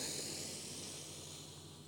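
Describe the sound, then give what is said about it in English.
Slow breath drawn in through the nose during a guided breathing exercise, a soft, airy hiss held steadily for about two seconds and gently fading, quiet throughout. “And so let's breathe together as three breaths as this one, inhaling through the nose.”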